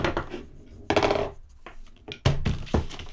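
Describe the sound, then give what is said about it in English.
A roll of duct tape is thrown against a person's head, giving a few sharp thumping knocks with a clattering, rattly ring, separated by quieter gaps. “that was the sound of your hostage having a bit of duct tape thrown against his head.”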